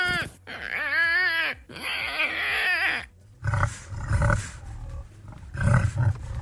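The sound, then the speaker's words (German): A larger wild boar gives a run of several deep, rough grunts in low bursts. Drawn-out, wavering animal cries come before the grunts. “Das ist ein Wildschwein, oder? Ein größeres, ja.”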